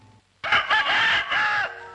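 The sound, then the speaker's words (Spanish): A fighting cock crows once, loud and strained, in one long crow of a little over a second that ends in a drawn-out tail. “Nunca había visto tan de cerca a un gallo de pelea.”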